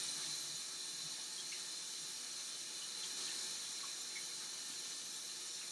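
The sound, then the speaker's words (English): Water running from a tap while hands are washed, a continuous, even hiss without breaks, fairly faint throughout. “the first step when you're cooking is, of course, to wash your hands.”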